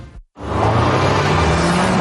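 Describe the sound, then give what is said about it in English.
An Audi car drives past. After a brief moment of silence, a loud engine drone swells in and holds steady, its low hum edging gently upward in pitch. “Hear that? That's the sound of Audi precision.”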